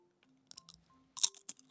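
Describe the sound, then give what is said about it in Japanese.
Crispy rice paper wraps with filling, made using water and a microwave, being bitten into: a few light crackles, then a loud, sharp crunch and one more brittle snap. “さあ早速食べてみたいと思いますいただきますうわパリパリ”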